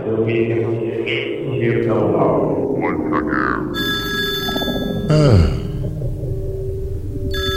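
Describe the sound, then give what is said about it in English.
Telephone ringing: a bright, loud electronic ring holds steady for several seconds after a man finishes speaking, with a brief louder bump partway through the ringing. “That's the phone now.”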